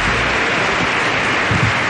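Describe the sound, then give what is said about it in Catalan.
Applause for an accordion player: loud, dense clapping that forms a continuous wash of noise at an even level for the whole short stretch. “Aquest és un aplaudiment per Jaume Molló, no?”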